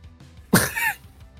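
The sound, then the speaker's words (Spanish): A single cough, one short, sharp, loud burst standing alone against a faint background. “toso en mi brazo, en algún momento te estoy molestando. ¿Te molesta que tosa?”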